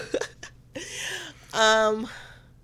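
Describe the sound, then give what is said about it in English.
A person hiccups once, a short voiced gulp among a few brief breathy vocal sounds, with no clear speech. “You look like you had a thought and then it was a hiccup.”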